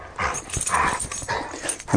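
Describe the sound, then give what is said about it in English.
A yellow dog whimpers and yips in an unbroken run of whines and short vocal bursts that rise and fall in loudness. A stronger yelp comes right at the end, and no one talks over it. “Why were you barking? Why were you barking? Come here.”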